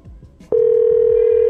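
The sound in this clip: A telephone call goes unanswered: after a brief click and some low rustle, a steady, unbroken telephone tone starts and holds loud and level.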